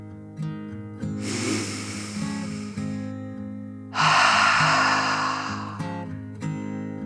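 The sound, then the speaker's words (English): A deep breath in and out from a children's guided meditation: two long, airy, fairly loud breath sounds, each a couple of seconds, separated by a short pause, over soft, steady background music. “Taking one more deep dragon breath in and out.”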